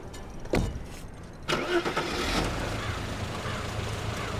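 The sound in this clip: A car engine starts as the car pulls out of a yard. Two sharp bursts are followed by a steady, mid-pitched running engine rumble that holds to the end.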